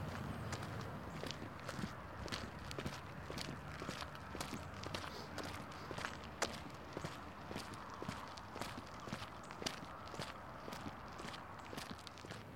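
Footsteps of people walking outdoors toward a community center in cold, windy weather: many steady, evenly paced steps, quiet and without talk.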